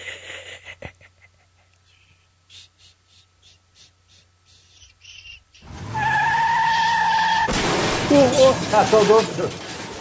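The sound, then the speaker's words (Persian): A car skids with a loud, sustained tire squeal that bursts in suddenly and grows harsher and noisier toward the end, after quieter voices and scattered sounds at the start. “تصادف شد. آقا حواستو به رانندگی جمع کن دیگه، این چه وضعیه؟ اصلا به رانندگی توجه نمی کنی یا؟”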